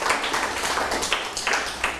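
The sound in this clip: Hands clapping in a classroom for a student, a dense, steady patter of many claps with a few louder accents, lasting the whole clip with no talk over it.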